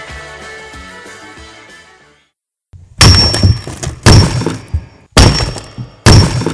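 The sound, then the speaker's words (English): Rock cracks in four loud, sharp impacts spaced about a second apart, each a crunching burst. They follow a fading musical passage and a brief silence. “that's the sound of rock cracking, and you got Rock Splitting Politics”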